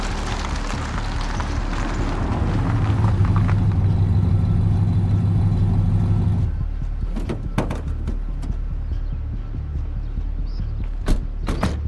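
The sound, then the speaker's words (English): A suspicious vehicle's engine rumbles and swells steadily for several seconds, then cuts off abruptly. A few sharp clicks and creaks follow in the quieter stretch. “Guys, the suspicious vehicle is getting close.”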